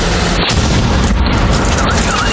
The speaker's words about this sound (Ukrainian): А це вже FPV вгатив біля муніципального автобуса просто у середмісті.